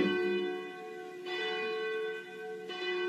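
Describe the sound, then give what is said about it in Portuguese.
Cathedral church bell ringing, struck a few times, each stroke leaving a long, rich, humming ring that sustains steadily at a fairly even loudness. “Falta 10 para as 10, bate o sino da nossa catedral, da Nossa Senhora de Aparecida.”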